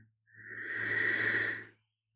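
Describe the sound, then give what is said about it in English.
A slow, deep breath in during a guided relaxation exercise, a soft airy rush that swells and fades over about a second and a half, faint, with a low steady hum underneath. “So once again now, deep breath in,”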